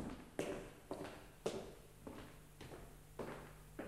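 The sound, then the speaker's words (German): Unsteady footsteps walk toward a door: several soft thuds at a slow, slightly uneven pace, each step a faint dull knock. “Er ging mit unsicheren Schritten auf die Tür zu und trat ein.”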